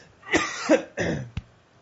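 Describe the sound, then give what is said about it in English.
A few short, dry coughs from a tickle in the throat. The first bursts are harsh and breathy, and a last brief, sharp cough follows after a short pause, with no talk. “it's not a COVID cough. I got the worst tickle in my throat, and I apologize.”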